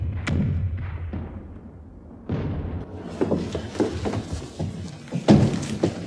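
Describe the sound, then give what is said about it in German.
Cannons of the Versailles forces firing during the Paris Commune: a few deep, heavy booms and thuds spaced irregularly, rising in loudness, with rumbling between them. “Sie hören die Kanonen von Versailles.”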